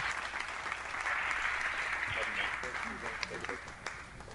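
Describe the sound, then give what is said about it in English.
Applause from a church audience welcoming a returning family home during a morning service: dense, steady clapping that lasts throughout, with some voices mixed in. “But I want you to put your hands together and welcome home our home people.”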